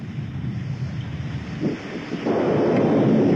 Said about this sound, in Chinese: 哎呀，山水下来了。哎，小兰，快往坡上跑，上老山头。